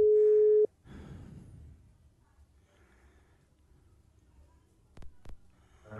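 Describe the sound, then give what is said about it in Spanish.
A telephone call is being placed: a steady mid-pitched tone holds for under a second and cuts off, followed by faint rustling and two short clicks. “Ya estamos haciendo la llamada”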